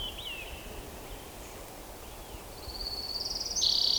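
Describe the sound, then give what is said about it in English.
An orange-crowned warbler sings faintly: a brief high chirp at first, then a rapid high trill that builds and grows louder toward the end. “Orange crown warbler in the background.”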